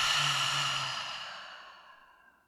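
A long breath out through the open mouth during a guided breathing exercise: one soft, airy, sigh-like exhale that starts full and fades steadily over about two seconds, with no talk.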